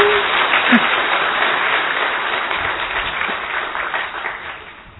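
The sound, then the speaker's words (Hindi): An audience at a gathering bursts into loud, dense applause, a steady roar of many hands clapping that slowly fades over several seconds. “अच्छी ताली बजाओ जोरदार”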